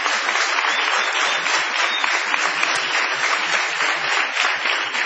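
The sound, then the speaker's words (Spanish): A crowd's prolonged ovation in a packed small warehouse venue, with many hands clapping in a dense, even roar that stays loud and steady throughout. No distinct voices come through. “Vamos a prolongar la ovación para honrar a Patricio Barton.”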